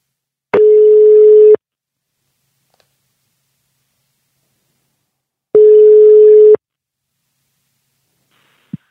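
Telephone ringing tones on an outgoing call: two steady, low one-second beeps separated by a long silence, followed by a brief click at the end.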